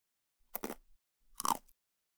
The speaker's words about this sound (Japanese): パッキーや食べるの早すぎだってば。